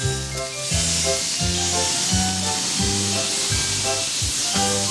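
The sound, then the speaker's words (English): Whooshing hiss of sleigh runners gliding over snow, a steady bright noise that runs throughout over a bouncing, repeating bass melody. “Through the snow with a whoosh and a hiss. The sleigh runners glisten and they sound like this.”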